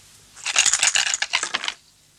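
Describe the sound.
Dice roll in a board game of Roman conquest, a rapid clatter of many small hard clicks and rattles tumbling for about a second and a half before settling into quiet, with no voices.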